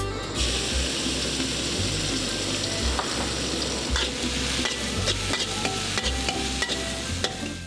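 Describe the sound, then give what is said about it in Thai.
Pounded chili and garlic stir-fry in hot oil in a pan, with a steady loud sizzle. Many quick scraping and clacking strokes from the stirring utensil run throughout, and no voices are heard. “พริกตำกระเทียมตำผัดไปแล้วต่อด้วยโปรตีนอีกชนิดนึงก็คือหมูสับ”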